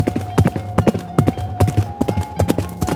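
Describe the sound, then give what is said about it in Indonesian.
Hooves clip-clop as a ridden horse is urged on to a nearby village, with many quick, sharp strikes in an uneven galloping rhythm that continues throughout. “bral saurang miang tumpak kuda ditegarkeun ngajugduk ka lembur nu pangdeukeutna neangan awewe anu keur nyusuan.”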